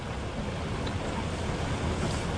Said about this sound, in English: It's getting heavier again, look. Look. It's wet. Yeah, there's even more rain now, isn't there?